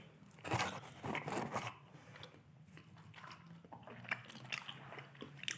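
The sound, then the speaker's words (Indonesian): Crunchy bites into fried, spicy skin followed by chewing: a few sharp crackling bursts early on, then quieter, uneven mastication with occasional crisp snaps, all without talk. “Kita coba yang kulit ya. Hmm. Wah enak sih makan kulitnya doang juga.”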